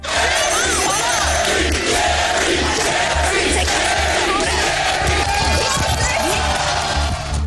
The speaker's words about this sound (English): He was best known for his controversial talk show, which regularly saw warring families, fights between guests, and the audience chanting the host's name.